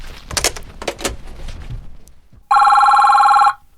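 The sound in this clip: A telephone rings in one loud, continuous, buzzing trill lasting about a second, after a stretch of softer, irregular sounds and a brief pause.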